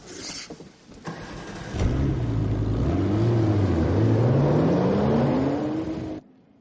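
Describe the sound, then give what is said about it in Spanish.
A car engine starts after a few brief clunks, then revs as the car pulls away, its pitch climbing steadily. The loud, sustained engine note cuts off abruptly near the end. “Navas, ensangrentado, le sigue y monta en el coche de Mikkel.”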